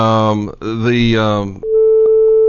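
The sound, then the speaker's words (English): Beeping on a phone line from an unexpected call-in on a line that is never used: a steady, mid-pitched electronic tone with one short blip in it, starting right after a stretch of speech. “I don't know how someone's calling in on a line that we never use, but and that's what that beeping is.”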